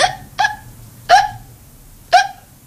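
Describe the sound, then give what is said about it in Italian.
Hiccups from a marshal seized by them, four short sharp voiced hics at irregular intervals, heard alone without talk. “viene il singhiozzo.”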